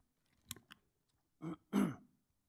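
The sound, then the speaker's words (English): Throat clearing and choking sounds from a person: two faint short rasps come first, then two louder, longer rough bursts, heard alone with no talk. “Excuse me. I am literally choking.”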